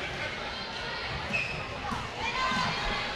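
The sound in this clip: Basketball dribbling during a girls' high school game, the ball bouncing under steady crowd noise with a voice talking over it.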